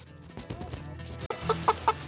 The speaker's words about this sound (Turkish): Tavukları kümese taşımaya hazırız.